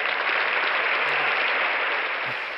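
Audience applause sound effect: a dense, continuous roar of many hands clapping at steady loudness, tapering slightly at the very end.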